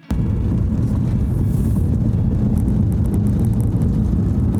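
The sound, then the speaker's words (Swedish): A car rolls over cobblestones along Strandgatan, recorded from inside the vehicle. A loud, continuous low rumble and road noise hold steady throughout, with no talk. “nu så kör jag fortsättningsvis på, på kullestenarna här då längs med Strandgatan”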